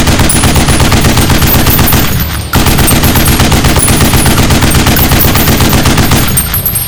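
A 7.62mm machine gun fires long, loud bursts of rapid automatic shots in a steady hammering rhythm, with one brief break in the firing before it resumes.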